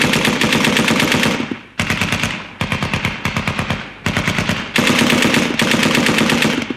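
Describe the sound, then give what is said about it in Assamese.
Rapid automatic gunfire opens an assault on a house, heard as several long, loud bursts of dense shots separated by brief gaps. “এতিয়া জোৰদাৰ আক্ৰমণ আৰম্ভ কৰা। Fire!”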